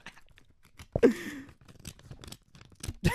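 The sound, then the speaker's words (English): A paper envelope is torn open with a letter opener: a few crisp slitting and ripping sounds, with one longer, louder tear in the middle, among scattered softer paper crinkles and rustles. “Okay, now I'll open the envelope.”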